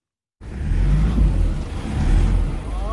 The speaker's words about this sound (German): Wenn die Reifen durchdrehen, hilft kein Gas geben mehr. Und das passiert häufig auf der schmalen, kaum ausgebauten Straße von Kathmandu in den Katastrophenbezirk Roshwa.